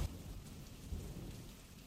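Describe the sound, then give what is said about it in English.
Steady rain falling in a valley in Powys in early summer, a dense, even hiss of drops with a couple of low thumps underneath. “Rain.”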